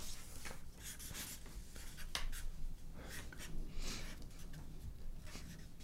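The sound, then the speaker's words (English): Pen scratching as a name is written on both sides of a card, heard as faint, irregular scratchy strokes with no talk. “I write it on both sides so that we can see it and they can see.”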